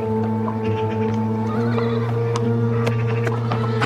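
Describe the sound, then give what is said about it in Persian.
Horse sounds as a rider strikes a horse a few times to set it moving: sustained, loud whinnying tones hold steady throughout, with scattered sharp clicks above them. “مائده چند ضربه میزن و اسب حرکت میکنه”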